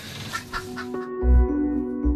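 Chickens clucking inside a henhouse on a care farm where eggs are being collected and a goat has got into the coop. A few short, agitated clucks come first, followed by steadier calls over low, dull thumps.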